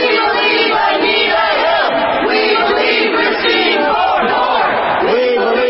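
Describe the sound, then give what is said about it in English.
A crowd of demonstrators protesting a Supreme Court nomination chants and shouts together in a dense, loud, continuous wall of voices. “That's the sound of some demonstrators who are protesting Brett Kavanaugh's Supreme Court nomination.”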